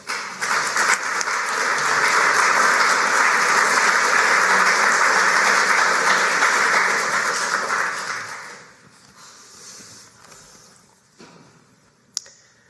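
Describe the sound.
Audience applause welcoming a speaker, dense steady clapping that swells and holds for about eight seconds, then dies away to a quieter murmur with one sharp click near the end.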